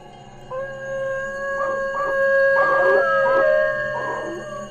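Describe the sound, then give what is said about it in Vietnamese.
A dog perched on an outhouse roof howls mournfully in a drawn-out, wavering cry that pulses in several swelling bursts, loud and alone. “Bỗng con chó từ trên nóc nhà vệ sinh ngưng sủa. Nó chu lên từng hồi, thật sự là nghe ai oán.”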